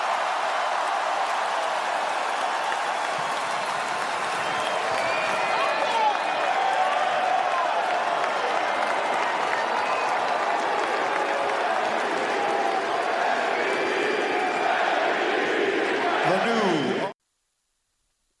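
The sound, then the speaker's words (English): A large arena crowd roars and applauds in a sustained wash of noise for LeBron James of the Lakers as he becomes the NBA's all-time scoring leader. It holds steady for about seventeen seconds and then cuts off abruptly to silence. “You hear the chants of MVP in the background.”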